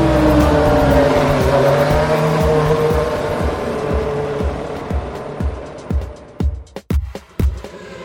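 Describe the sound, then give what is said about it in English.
A Formula One racing car engine gives a loud, high, buzzing whine that slides steadily lower in pitch, then breaks into a series of short, sharp bursts. “Formula One makes a lovely sound.”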